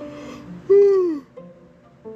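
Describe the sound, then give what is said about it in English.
Human yawn: one loud, drawn-out voiced exhale that sags slightly in pitch and fades, set between softer vocal sounds. “I'm so sorry with the yawning. But hey, we're all human, right?”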